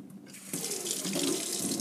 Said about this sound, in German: Ich habe ein kleines Schüssel angegeben, da gebe ich jetzt ein bisschen Wasser rein